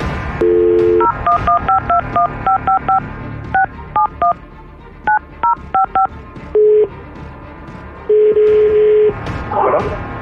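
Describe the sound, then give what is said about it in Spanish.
Touch-tone dialing of a phone number for a call to Zacatecas, Mexico: a short steady tone, then many quick two-note beeps in an uneven run, ending with a longer steady tone. “Vamos a marcar.”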